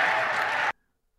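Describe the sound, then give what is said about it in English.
Crowd cheering and applause in Phoenix after a game, a loud dense burst lasting under a second before cutting off abruptly to silence. “What was that, Jay? That's the peanut gallery. They're still cheering. They're still cheering in Phoenix.”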